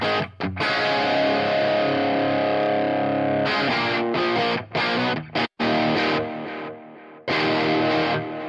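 Overdriven electric guitar through a Marshall amp capture on a Quad Cortex, with delay added: loud, distorted sustained chords ring in phrases, broken by a few short gaps and a clear pause near the middle.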